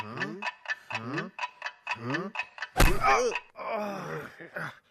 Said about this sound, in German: Aber jetzt hör doch mal, Henry. Da ist ein Geräusch.